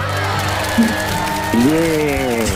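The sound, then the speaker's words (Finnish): Applause and cheering rise from an audience: a steady wash of clapping with a few whoops, while voices carry over it. “Jee! Ootko tänään saanut vielä näin isoja aplodeja?”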